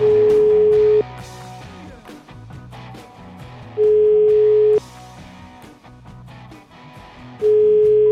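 Telephone ringback tone while a call is being placed: a steady, mid-pitched tone sounds three times, about a second each, at even intervals over background music.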